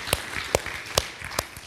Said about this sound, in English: And I just want to give a hand clap of praise to the Lord for what he's already accomplished in us this